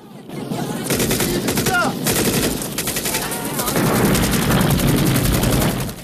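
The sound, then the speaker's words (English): Rapid, loud machine-gun fire hits parked trucks on a bridge, dense bursts running almost continuously with a brief break near the start. “He hits the parked trucks on the bridge. A fireball ignites. He fires again, taking out all the trucks.”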